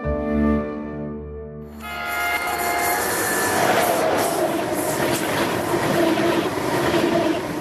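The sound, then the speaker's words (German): A high-speed ICE train: a sustained tonal horn blast gives way to a loud, steady rushing rumble of the train and its wheels on the rails. “Mit dem ICE.”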